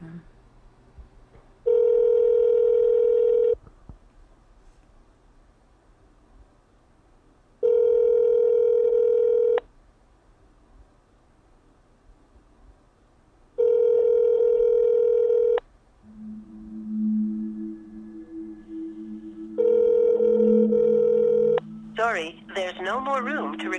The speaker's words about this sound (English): Did it go straight to voicemail or did it ring first?